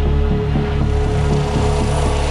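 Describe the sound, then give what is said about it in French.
A helicopter approaching a prison gives a loud, steady engine drone layered with low, regular thudding rotor pulses, staying at an even level throughout. “un hélicoptère s'approche de la maison d'arrêt de Luynes.”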